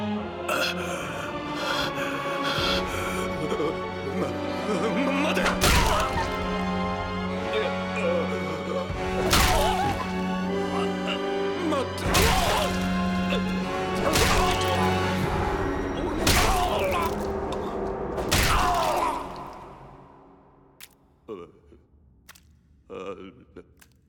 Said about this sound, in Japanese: これがバールのポテンシャル。 L 字の方で殴るのがコツだ。衝撃が集約されるからな。